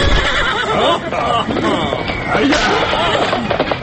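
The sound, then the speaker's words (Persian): Horses neighing and hooves clip-clopping as riders mount and ride off: loud, shrill whinnies rise and fall over a busy clatter of hoofbeats. “آرتا و امیر کبیر سوار اسب شدند و به سمت حمام فیل رفتند.”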